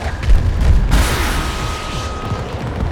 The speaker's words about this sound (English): This little grenade launcher is the worst.